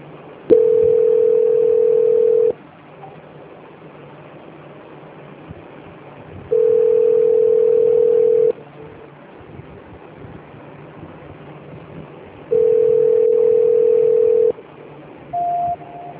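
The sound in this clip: Telephone line tones during a call transfer: three long, steady mid-pitched tones of about two seconds each, separated by roughly four-second gaps, then a short higher-pitched beep near the end.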